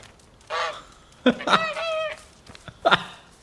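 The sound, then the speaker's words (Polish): Goose honking in a video game: a few nasal, harmonic honks, one of them longer and drawn out, set against a soft noisy background. “Gęś, nie bój się, kochana.”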